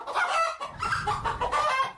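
Hens cluck and a rooster crows among farmed chickens, in a few fairly loud, busy bursts of overlapping calls that follow each other closely, with no talk.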